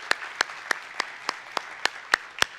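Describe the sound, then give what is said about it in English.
Crowd applause at a church service greeting online viewers: dense, steady clapping with a regular beat of sharper, louder claps about every third of a second. “Hey, can we make some noise and welcome in our online family? Come on, let's hear it for them.”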